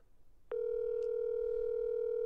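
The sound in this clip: Telephone line tone during an outgoing call. After a brief click, a steady, unbroken mid-pitched tone starts about half a second in and holds loud and level to the end, with no voices.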